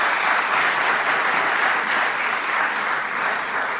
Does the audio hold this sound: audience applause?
yes